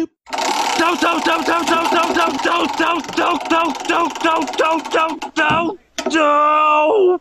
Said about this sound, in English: To do that, we're going to need that wheel of random. And let's spin to see what season we are in.